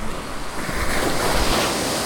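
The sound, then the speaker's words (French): Sea waves break on the shore in a broad rushing wash that swells and holds, with wind noise over it. “le côté agréable, c'est quand même d'avoir la mer tout autour. L'eau. Le rapport à la mer.”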